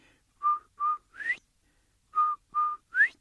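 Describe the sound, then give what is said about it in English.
A human whistle imitating a quail's call: two phrases of three notes each, two short steady notes followed by a sharply rising one, clear and bright with a pause between the phrases. “No, Quail's gone, and so is his beautiful whistle. And way off in the distance, he hears that beautiful sound.”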